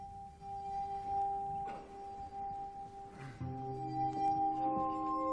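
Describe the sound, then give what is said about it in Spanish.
Glass harmonica in an opera mad scene: faint, sustained, pure glassy tones held steadily over soft orchestral accompaniment, with new ringing notes entering partway through. “Ahí vemos cómo suena el fondo. Aquí está sonando. La armónica de cristal.”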